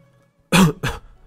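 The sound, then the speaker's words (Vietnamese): A woman gives two dry coughs in quick succession, the first longer and louder, the second shorter and slightly weaker. They are harsh and breathy, with a faint steady hum beneath and no talking. “Bích Nguyệt phu nhân không ngừng ho khan”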